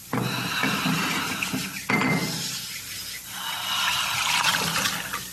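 Tea pouring into two glasses: a steady splashing stream of liquid with a short break partway through, then a second run of trickling and splashing.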